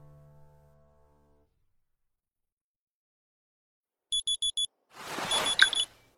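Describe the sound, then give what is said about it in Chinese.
A phone alarm clock goes off at seven in the morning: after near silence, four quick high-pitched beeps sound, then a short burst of noise with more beeps mixed in. “清晨七点，闹钟震动第一声的时候，周迷就醒了，一把摸出枕下手机掐掉闹钟”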